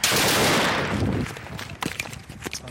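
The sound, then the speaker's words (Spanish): A car bomb explodes in Raqqa, Syria, opening with a loud, roaring blast that decays over about a second, followed by scattered sharp crackles and thuds. “Este es el momento en el que un vehículo bomba estalla en Raqqa, Siria.”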